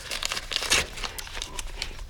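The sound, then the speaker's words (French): An envelope is torn open, giving a few quick, faint bursts of crinkling and ripping paper with short gaps between them. No one speaks. “Oh, une enveloppe! Encore une enveloppe! Vite, ouvre, ouvre!”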